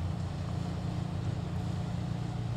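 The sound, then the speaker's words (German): A ship passing on the Rhine gives off a low, continuous engine drone, a steady rumbling hum of even loudness with a faint airy hiss above it and no voices. “Ein Schiff fährt vorbei.”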